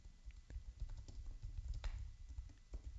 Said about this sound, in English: Every once in a while, I have to do something, so I'm going to type while I speak.